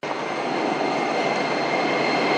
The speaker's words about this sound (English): Welcome to Subway Line 10. The next station is 车道沟。Please get ready for your arrival. 车道沟站到了。We are arriving at 车道沟 station.